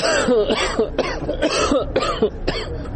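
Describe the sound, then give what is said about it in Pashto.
Coughing from a hospital patient in Kabul with breathing problems blamed on polluted air: a rapid series of harsh, hacking coughs with throaty rasping between them, loud and continuous throughout. “د سالانډۍ او ټوخي لامل یې د کابل ککړه هوا ده”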